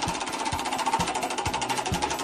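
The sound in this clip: Game show prize wheel spinning, a rhythmic series of ratcheting clicks and clacks ticking past at a steady, fairly quick pace with no voices over it.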